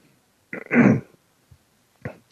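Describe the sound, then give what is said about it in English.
A person clears phlegm from the throat with a harsh, rasping rumble, then a faint short grunt and a second, briefer clearing. “I got a lot of phlegm in my throat this morning.”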